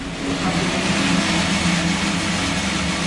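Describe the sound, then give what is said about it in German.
A large stainless steel coffee roasting machine roasts a batch of beans inside a former garage, giving a loud, constant, even roar. “In einer großen ehemaligen Garage im Gewerbegebiet röstet gerade eine Ladung Kaffee in der großen Edelstahlmaschine.”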